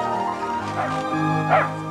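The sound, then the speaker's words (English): A shaggy dog barks in a building hallway, giving a few short, sharp barks over a steady tonal background. “In the hall, a man approaches, and a shaggy dog runs toward her.”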